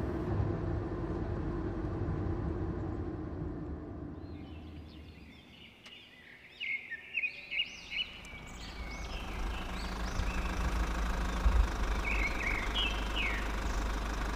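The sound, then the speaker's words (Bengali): A car's engine rumbles low as it arrives and stops in front of a mansion-like house with a large iron gate. The rumble fades briefly, then swells back into a steady idle, while birds chirp high above it. “এরপর গাড়ি এসে থামল চট্টরাজ বাড়ির সামনে”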